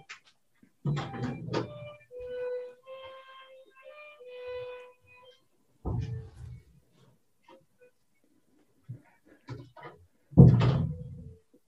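An interior door being shut, heard as a few dull thumps and handling bumps separated by quiet stretches. Faint sustained violin notes from a child playing downstairs drift in between them.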